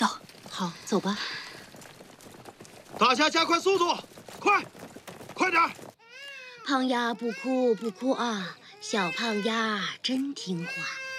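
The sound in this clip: A baby girl cries in high, wavering wails while adults hurry on foot to escape enemy soldiers. Adult voices talk first, then the crying grows loud and insistent.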